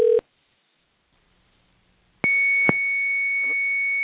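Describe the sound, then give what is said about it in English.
A telephone dialing out sounds a short electronic beep, then a silent pause. A steady, high electronic line tone follows, broken by a sharp click partway through. “And all right, we're dialing out now and seeing if he's here.”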